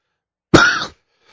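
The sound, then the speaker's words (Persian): One sharp, harsh cough from a person who still has a lingering cough. It bursts out abruptly and fades within half a second, alone in silence. “من یه ذره سرفه کنم، هنوز سرفه دارم.”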